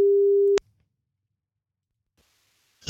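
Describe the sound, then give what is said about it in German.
A telephone line tone sounds as a call is placed to a listener during a radio phone-in ticket game. One steady, mid-pitched beep cuts off after about half a second, then near silence until a faint noise at the end. “Wollen wir mal anrufen? Los geht's. Lass mal gucken,”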